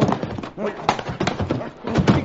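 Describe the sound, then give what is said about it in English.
Clip-clop of horses' hooves pulling three U.S. Army wagons, a busy, uneven clatter that swells and eases, with voices heard over the hoofbeats. “See, down there. Three U.S. Army wagons.”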